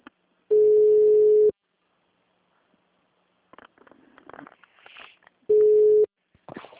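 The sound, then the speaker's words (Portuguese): A telephone busy tone sounds after a dropped call: two long, steady, low beeps separated by a gap filled with faint rustling and scraping noises. “Caiu a linha.”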